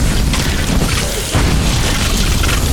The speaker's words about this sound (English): There's like little glowy guys. Whoa, he just exploded.